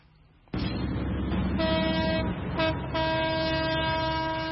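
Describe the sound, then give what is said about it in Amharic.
An old train leaves Dire Dawa station on the century-old, French-built line. A loud, steady rumble starts abruptly and carries a sustained horn-like tone that drops out briefly, then returns. “ሳቡር ከድሬዳዋ ጣቢያ ከፍተኛ ድምጽ እያሰማ ይወጣና በንጋት ጨለማ ውስጥ ይሰወራል።”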